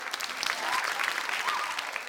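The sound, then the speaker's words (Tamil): Applause from a group fills the whole clip as a dense, continuous patter of many hands clapping. It is fairly faint and holds an even level throughout. “Okay, இவங்களுக்கும் பலத்த கைத்தட்டலை கொடுத்துருவோம்.”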